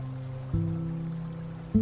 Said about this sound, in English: like the stream you can hear right now, washing through your mind